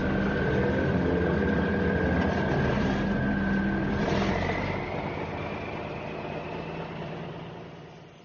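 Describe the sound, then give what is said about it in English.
A wagon's engine runs with a steady, loud, rumbling drone as it is put into gear; a whining tone dips and then climbs partway through, and the noise eases slightly toward the end. “Ryan put the wagon to gear. He advanced down the corridor.”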